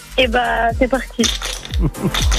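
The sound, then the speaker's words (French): Dice rolled in a board game on a televised game show: a run of hard, clattering clicks and bounces that come in uneven bursts, bright and ringing. “Les filles, on va lancer les dés.”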